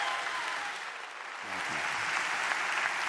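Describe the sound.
An audience applauds to welcome a speaker to the stage, a dense and steady wash of clapping that holds through the whole stretch.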